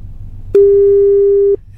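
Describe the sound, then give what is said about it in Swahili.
A telephone ringback tone sounds as a radio host places a call to a listener: one steady, mid-pitched tone holds for about a second, then stops, over a faint low hum. “Let's make another call.”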